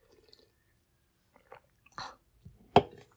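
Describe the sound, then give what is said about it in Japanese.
Soft gulping and swallowing sounds from someone drinking a canned cassis orange cocktail. A few brief, quiet sips come after a near-silent start, and the last one is the loudest. “カシオレ飲んでるわカシスオレンジの缶のやつ飲んでるわ”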